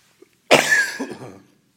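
A man coughs once, harshly and loudly, and then clears his throat in a fading rasp. No talk is heard.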